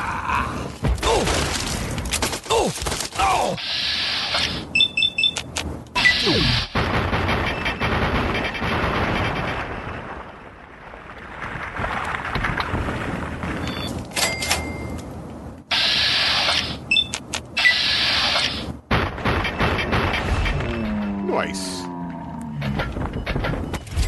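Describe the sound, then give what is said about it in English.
Video game combat with small arms fire from raiders and heavy booming: loud bursts of shots and booms broken by short gaps, with a quieter stretch near the middle and a droning tonal sound near the end. “I have no idea what that big booming is. That small arms fire, however, is some raiders. They're trying to have me for breakfast.”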